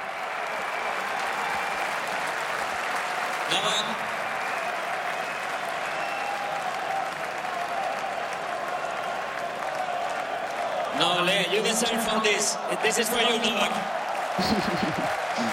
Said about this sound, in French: Nole, ce sont les encouragements du public avec le diminutif de Novak Djokovic en serbe.